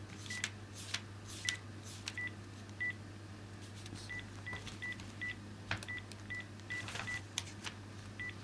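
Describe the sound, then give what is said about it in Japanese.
Keypad tones of a telephone being dialed to call someone: many short beeps of similar pitch at uneven intervals, faint over a low, steady hum. “よし、ちょっとある人に電話をかけてみます。”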